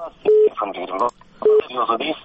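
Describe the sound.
A telephone line connecting a radio call-in listener gives two short, steady electronic tones of one pitch, each set apart by stretches of talk.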